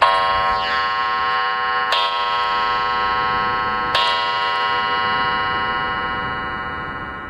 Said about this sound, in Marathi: अरे घड्याळाची गंमतच आहे बघ माझ्या. तीन टोले पडले म्हणजे दोन वाजलेत असं समजायचं.